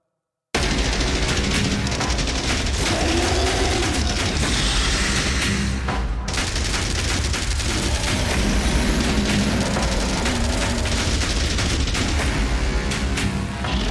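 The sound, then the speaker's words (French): Heavy gunfire and booming artillery as a battalion opens fire in a trench battle. A loud, dense, unbroken barrage bursts in abruptly after a brief silence and keeps pounding without pause. “Le bataillon 39 ouvre le feu et repousse la créature.”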